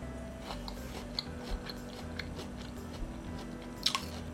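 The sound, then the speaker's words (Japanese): Crunchy biting and chewing of very sweet, lightly salted Shinshu corn on the cob, with a few sharp crunches over a steady, soft chewing texture and no talk. “本当にこの商品名の名の通り極甘ですで塩加減がすごくマッチしていてとっても美味しいですちょっと引き続きいただきますね”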